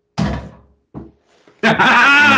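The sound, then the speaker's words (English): A basketball bounces off the hoop rim after a missed shot: a heavy thud, a second softer thud and a faint third tap. A loud, sustained burst of noise then takes over. “Nope. I missed. Shit. Bounced off the rim.”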